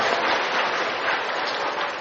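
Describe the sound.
Audience applause fills a Buddhist dharma talk hall, a dense, steady wash of clapping hands that holds an even loudness for the whole two seconds, with no voices over it.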